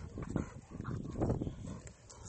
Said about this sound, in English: Stupid dogs. Oh my gosh. Hey, bark and bark.